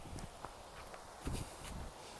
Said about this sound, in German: Man sieht nicht so viel. Laufen wir erstmal hin.